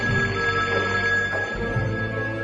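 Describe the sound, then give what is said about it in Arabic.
A telephone rings on and on, unanswered: a steady electronic ring with a bright, unbroken tone that holds at an even level through the whole short stretch, with no voices. “ما راح اجاوب، خلي يرن لين يروح، ما راح اجاوب.”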